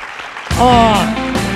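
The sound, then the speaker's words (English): A crowd-cheering sound effect bursts in after a brief quiet moment, with loud shouts and applause that peak at once and then carry on at a sustained level. “Crowd goes wild. They love it.”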